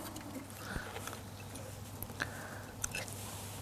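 Faint chewing as someone tastes a self-caught fish, soft irregular mouth and biting sounds over a low steady hum.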